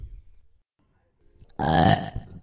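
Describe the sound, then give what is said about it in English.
A single loud, drawn-out burp, rough and guttural, follows a brief faint low rumble and a near-silent pause. “There's only one person I know who belches like that.”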